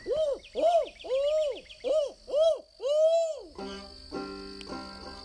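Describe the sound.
A barred owl hoots in the wilderness: six loud, rounded calls in a steady series, each swelling and falling, followed by a different steady tonal sound.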